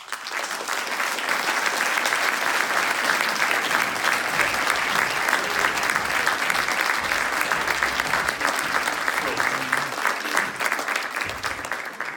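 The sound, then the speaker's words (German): Big, sustained applause from an audience greeting a guest speaker onstage, many hands clapping in a thick, even roar that holds at a steady loud level for the whole stretch. “mit Riesenapplaus und herzlich willkommen, Dr. Georg Fraberger.”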